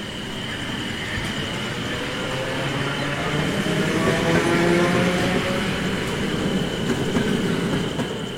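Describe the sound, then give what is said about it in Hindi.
A train pulls in at night with rumbling wheels and steady rail clatter under a thin, high metallic whine. The sound swells gradually louder toward the middle and stays strong for several seconds. “और जैसे ही train आती है अभय उसमें चढ़ जाता है”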